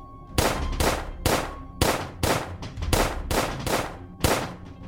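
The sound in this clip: Gunshots are fired in complete darkness as a steady string of many sharp, metallic-sounding cracks, spaced less than a second apart, with no voices.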